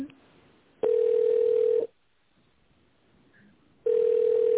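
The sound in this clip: Telephone line tone during a call transfer: a steady mid-pitched tone on a thin phone line sounds for about a second, goes quiet for two seconds, then starts again.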